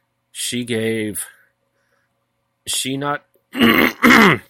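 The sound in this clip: Someone with an irritated throat clears it, two harsh, raspy bursts near the end, preceded by short voiced sounds with gaps of silence.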